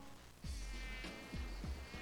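Mosquito buzzing: a thin, steady whining drone with a few low thumping pulses beneath it, faint and with no talk.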